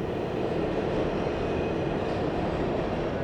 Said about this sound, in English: Yes, that is the sound of the New York subway.